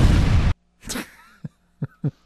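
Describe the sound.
A bomb explosion sound effect, a loud broad burst of roaring noise lasting about half a second that is cut off abruptly, followed by a few brief, fainter sounds.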